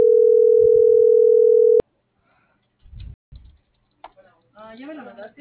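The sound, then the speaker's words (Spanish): A steady, low telephone dial tone hums for nearly two seconds while a call is being dialled, then cuts off abruptly. Soft clicks follow, and then a voice begins speaking. “No, yo le estoy marcando.”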